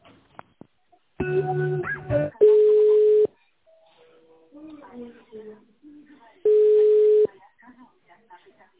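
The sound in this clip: Telephone line tones sound while an office call is transferred: two steady, single-pitched beeps about a second long, separated by faint low murmurs and preceded by a brief buzzier harmonic tone.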